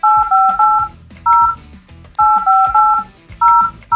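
Telephone dialing tones as someone is called on the phone: a rapid run of loud two-tone beeps in several quick bursts with short gaps between them.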